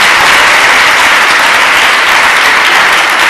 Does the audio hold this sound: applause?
yes